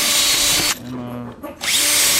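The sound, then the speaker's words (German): A carpenter's cordless screwdriver drives screws into wood while fitting a cabinet floor panel. A high motor whine drops to a lower, strained tone under load, then rises back to full speed. “Also der Akkuschrauber ist auch die ständige Verlängerung der Hand des Schreiners, weil die Dinger haben wir so oft in den Händen.”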